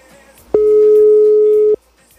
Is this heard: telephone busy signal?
yes